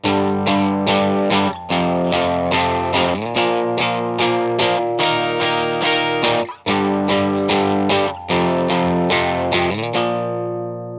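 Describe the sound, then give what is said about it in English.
Bright electric guitar strums chords in steady eighth notes, played on a single-coil bridge pickup straight into an amp; many loud, even strums run without pause, with no voices. “It's this very bright and empty eighth note strum of the chords. It goes like this.”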